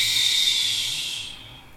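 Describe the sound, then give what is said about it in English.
One deep clearing breath released through an open mouth during a breathing exercise, a steady airy hiss that gradually fades out over about two seconds. “Gentle, open mouth release. Do that one more time. Inhale this full body breath as you fill up. It's a clearing breath out.”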